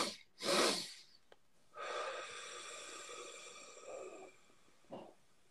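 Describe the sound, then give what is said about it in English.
A breathing exercise: a quick breath in, then a long, steady exhale of about three seconds, with a short breath at the end. The breathing is soft and heard alone. “let's do a few physiological sighs, which are basically two breaths in and then one long breath out.”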